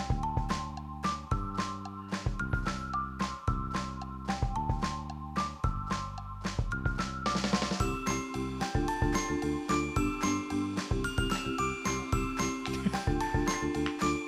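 A loud, upbeat homemade jingle for a trivia segment, with a steady driving beat, chiming bell-like tones and layered melody that keep going without pause.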